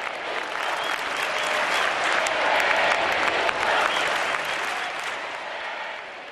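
Sustained applause and cheering from a crowd of thousands of families surrounding Pope Benedict XVI at the World Meeting of Families in Valencia, Spain. The dense clapping holds steady throughout and swells slightly in the middle.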